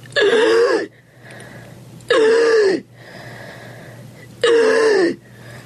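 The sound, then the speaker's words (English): Deep, loud, tortured heavy breathing: three long, strained gasping breaths with a moaning, voiced quality. Each lasts under a second and is separated by quieter pauses over a steady low hum. “all of us, the group in the hallway, the two actresses in the exam room, heard several deep, loud, tortured breaths.”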